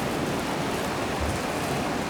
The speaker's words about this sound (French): Je suis tout proche du remous des vagues. D'innombrables conglomérats de roches.